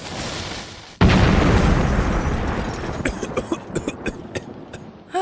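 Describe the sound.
A gas grill explodes as it is fired up. A sudden loud boom breaks in after a second of steady noise, then a long, slowly fading rumble trails off with scattered crackles and pops.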